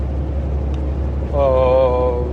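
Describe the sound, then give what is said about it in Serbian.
Steady low engine drone inside the cab of a Peterbilt, an American truck hauling fuel, a constant deep hum that holds throughout while a voice joins partway through. “kamion koji vozim e, trenutno je Peterbilt, američki kamion i imam samo reči hvale za, za njega.”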